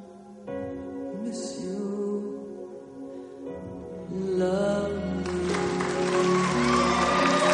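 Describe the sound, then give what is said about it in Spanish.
Cheering and applause from an audience after a couple's dance on the floor in a 1998 dance film, rising over ongoing music and swelling into a loud, dense roar near the end. “John se levanta eufórico junto a todo el público que aplaude con ímpetu.”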